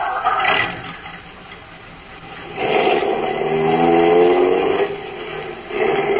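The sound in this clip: Car engine on a drive to a plant, a mid-pitched hum that swells after a quieter stretch into a louder revving drone with clear engine tones, then eases back before picking up again.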